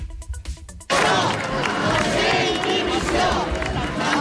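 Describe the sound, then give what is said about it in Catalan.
A protest march crowd in València chanting against the handling of the DANA floods and demanding the former regional president's jailing and resignation; after a brief quieter opening, loud, continuous massed chanting takes over. “Ara ho escoltem. La marxa, com sentim, és Mazón a presó, Mazón dimissió.”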